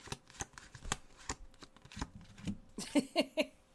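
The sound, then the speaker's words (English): Tarot cards are shuffled and drawn: a faint series of soft riffles and papery flicks, ending with a few sharper snaps of cards. “I got the emotional encouragement openness card, the Ace of Cups. Oh, and I got the Hermit.”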